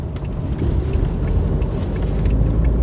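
A car driving out of town, its low engine hum and road rumble steady and fairly loud throughout, with no voices.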